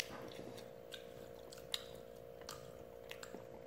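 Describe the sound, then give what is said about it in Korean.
Faint chewing of food that is not spicy, with a few soft, wet squishing clicks over a steady low hum. “매워요? 아니요, 안 매워요. 안 매워요. 제가 이렇게 잘 먹을 수 있을 정도면 진짜 안 매운 거예요.”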